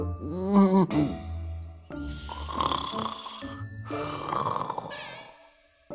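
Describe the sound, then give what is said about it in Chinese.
Snoring from a person asleep on a daybed: a few drawn-out, rasping snores that swell and fade in a slow, steady rhythm. They are loud and heard alone. “小牙越说越困倦，头一歪，干脆在榻上打起了呼噜。”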